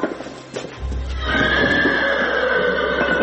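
A horse neighs loudly in a long, sustained whinny among horses gathered together, most of them from the local village; the whinny starts after about a second and holds to the end.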